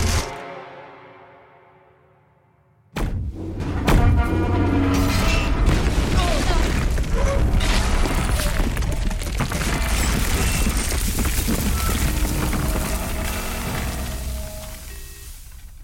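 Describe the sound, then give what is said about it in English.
A spaceship crash-lands through a portal: a fading tonal hum gives way to a sudden loud boom, then sustained roaring rumble with crashing, clattering impacts and mechanical noise that continue heavily before easing slightly at the end. “We're caught in the portal's gravity while we are going in! Firing rear thrusters, attempting to level our descent. Nope, that is not gonna work. Brace!”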